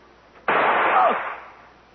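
A single gunshot fires in a radio drama, a sudden loud blast that rings out and fades over about a second. Quiet comes before and after it.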